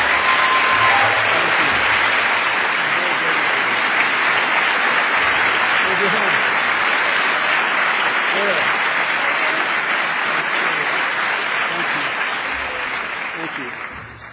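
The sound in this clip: An audience gives a big hand to an honoured woman: dense, even applause that holds strongly for about fourteen seconds, then tapers off at the very end.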